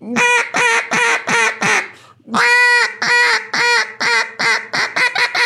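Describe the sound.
A duck call blown to imitate a mallard hen. A few quacks open the run, then a short pause and a long, loud drawn-out note. A quickening series of shorter, clipped quacks follows, bunching tighter toward the end.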